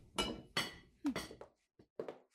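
Dishes clink during kitchen chores in a castle: several faint, sharp chinks of crockery and glass in an irregular run, with small gaps of near silence between them.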